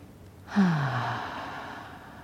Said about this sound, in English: Allowing three diaphragmatic breaths to be pulled in. Holding for a second.